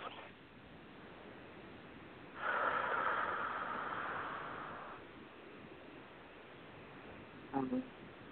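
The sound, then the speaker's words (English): A long, deep breath drawn in: a soft, breathy hiss lasting a few seconds that slowly fades, heard alone after a quiet stretch. “Take a nice deep breath.”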